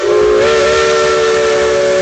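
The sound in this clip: A steam locomotive whistle blows in one loud, sustained, steady tone with a rich, reedy harmonic sound, lasting about two seconds without a break.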